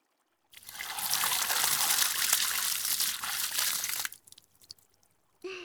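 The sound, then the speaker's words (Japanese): Water is poured over a person's body to rinse them, a steady splashing gush lasting about three and a half seconds that then cuts off, leaving a few faint drips. “ほら、流さないと体冷えちゃうよ。しっかり流しますね。”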